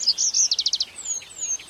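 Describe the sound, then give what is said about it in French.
Songbird (passerine) song: a quick run of bright, high chirping notes, the later ones short and evenly spaced, followed by thinner, higher whistled notes, clear and alone with no voices. “nouvel extrait, toujours autour des passereaux et de leur chant, évidemment, puisqu'on les appelle les oiseaux chanteurs.”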